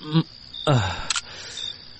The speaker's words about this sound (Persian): خیر باش که من یک چند تا عکس خانوادگی بگیرم.